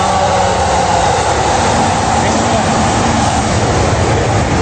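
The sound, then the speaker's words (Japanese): A Tokaido Line train passes with a loud, steady roar and rumble that fills the whole clip. The dense rolling noise barely changes in level from start to end. “東海道線が通ってる間は何も聞こえなくなります。”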